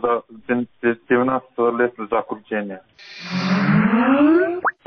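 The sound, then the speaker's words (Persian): The start-up sound of the Skype computer program: a bright chime with tones gliding upward. It comes after a few seconds of talk. “این صدای باز شدنی برنامه کمپیوتری سکایپ است که به هر شخص امکان میدهد به پول با دیگران در تماس تلفنی شود.”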